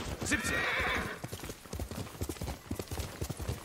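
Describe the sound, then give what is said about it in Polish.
Horse hooves clip-clop on the move in a video game, opening with a short whinny and then settling into a quick, fairly faint, uneven beat of hoof strikes. “Dajcie konia.”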